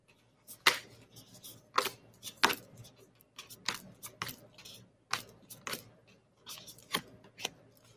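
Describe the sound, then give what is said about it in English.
Divine energy oracle cards being drawn from a deck: many crisp, dry snaps and flicks in an irregular rhythm, fairly faint against a quiet background. “Okay, so I'm going to pull up like three cards.”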